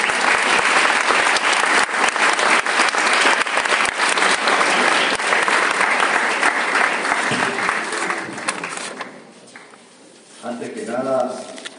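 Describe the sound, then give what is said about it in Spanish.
Audience applause welcomes a lecturer at a conference. Dense, steady clapping from many hands lasts about eight seconds, then fades as a voice begins speaking. “Recibamos al doctor Hugo Alberto Verdera con un fuerte aplauso.”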